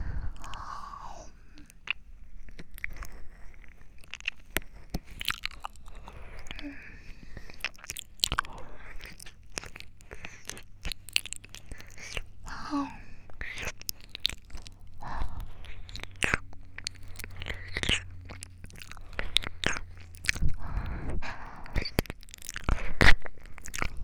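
Biting and chewing food: many sharp crunches and wet mouth sounds in a steady, uneven rhythm, continuing throughout without talk.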